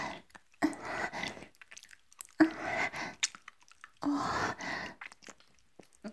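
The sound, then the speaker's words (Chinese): Wet licking and slurping on the dirt-caked sole of a shoe, with saliva smearing over the grime: a few soft, moist smacking strokes separated by short pauses, fairly faint and without talk. “我的口水都把鞋底舔湿了。这上面还拉出了白腻腻的口水丝线。”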